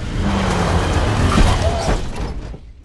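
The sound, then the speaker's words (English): A car reversing and crashing into something: a steady engine roar with a brief dull thud midway, the noise then fading out at the end. “He reverses into something.”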